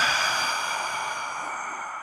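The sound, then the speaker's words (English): A slow, deep breath during a guided breathing exercise, heard as a steady breathy hiss lasting about two seconds that gradually fades, with no talk over it. “let's just take 3 breaths, okay? Here we go. And inhale. And exhale.”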